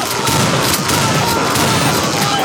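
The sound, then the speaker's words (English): Ninjas explode in a side-scrolling platformer video game with a dense, loud, unbroken barrage of crackling, booming blasts. “Those were ninjas that exploded. Their heads exploded.”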